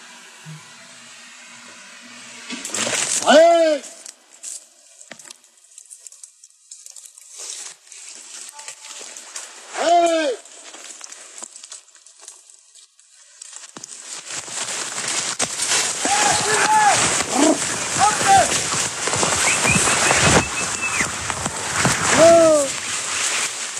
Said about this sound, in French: Vous avez aussi fait un travail sur la chasse, non? La chasse au sanglier dans les Ardennes. Oui. J'ai des sons, là. Je crois que j'ai des sons de chasse.